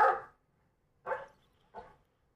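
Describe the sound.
A large dog with a big mouth gives three loud, projecting barks, the first the strongest and longest, followed after a pause by two shorter ones that fade quickly, with no other sound between.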